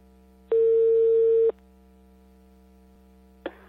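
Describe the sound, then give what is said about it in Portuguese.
Ringback tone on an outgoing telephone call: one steady, pure beep lasting about a second, then roughly two seconds of silence over a low hum before the next tone starts at the very end. “Aí tá chamando de novo.”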